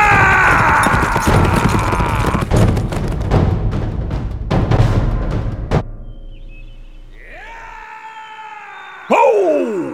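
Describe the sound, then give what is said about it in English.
Rapid, loud hoofbeats of a horse galloping up an alley into a main street pound over a dense rumbling background, then break off partway through as other sounds take over. “Smoke urged Drifter on, galloping up the alley and once more entering the main street.”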